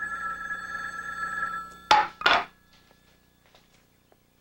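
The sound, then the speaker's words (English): A telephone bell rings in a steady, buzzing tone, then stops. Two sharp clatters follow, and then near silence. “moves to answer the phone.”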